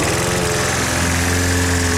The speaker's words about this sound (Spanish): ¿Cansado de perder horas cortando el césped?